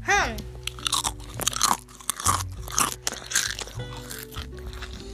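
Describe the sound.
Pizza-flavoured Pringles crisps crunch loudly as they are bitten and chewed, in several sharp, brittle bursts with uneven spacing.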